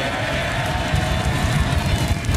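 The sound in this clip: Cheering from members of a parliamentary party after a confidence ballot backing the prime minister is announced, a loud, steady roar of massed voices over a rumbling low undertone.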